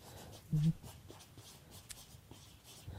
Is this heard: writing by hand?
yes